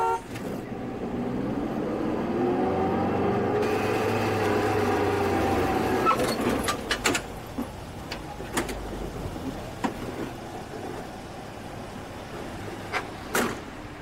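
A car driving, with a continuous low engine and road rumble under scattered faint clicks and knocks, and no talking.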